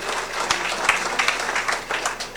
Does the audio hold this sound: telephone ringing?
no